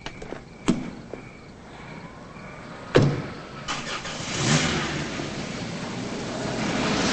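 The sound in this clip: A car starts and drives away: two sharp thumps, then an engine turning over and building into a steady, rising drive-off roar.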